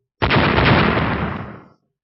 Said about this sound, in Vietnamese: Đám mây hồi sắc tiếp tục cuồn cuộn lên, hào quang trong lốc xoáy tỏa sáng, lại là một cơn thiểm điện hôi sắc bổ xuống, uy lực lần này còn mạnh hơn cả lần trước đó nữa.